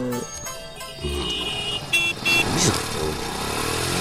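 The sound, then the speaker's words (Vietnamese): Loud road traffic with motorcycle and car engines droning continuously as vehicles drive past, their revving and whooshing swelling slightly in a steady, busy wash of noise. “Ôi giời ơi, xe chạy kinh thế cơ chứ.”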